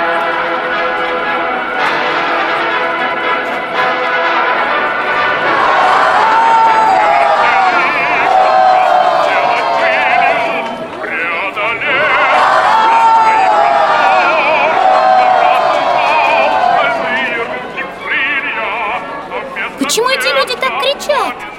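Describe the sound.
A large crowd cheers to welcome Chkalov's ANT-25 long-distance flight crew, three men in thick fur-lined leather jackets. The cheering is loud, sustained and dense with many voices, and a narrator talks over it.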